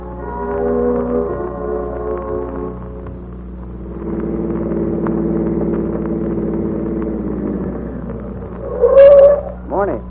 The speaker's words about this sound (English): A motorist drives into a filling station.